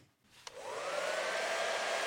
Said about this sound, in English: A hairdryer? This will melt the ice and evaporate the remaining fluid.